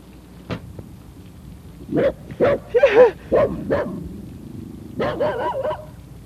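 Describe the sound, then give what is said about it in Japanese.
A dog barks in short, sharp bursts: a cluster of several loud barks, a pause, then another quick run of higher yipping barks. No talk is heard. “なんだ犬か。”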